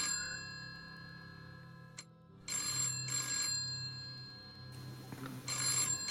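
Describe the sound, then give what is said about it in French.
A telephone rings upstairs in bursts of bright, high electronic trilling, two clusters of rings separated by short gaps, clear over a low steady hum. “Est-ce qu'il y a un téléphone qui sonne Vous entendez le téléphone qui sonne à l'étage”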